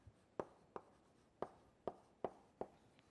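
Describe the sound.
Writing on a board during a molecular biology lecture comes through as faint, sharp taps and short scrapes, six distinct strokes in an uneven rhythm with quiet gaps between them.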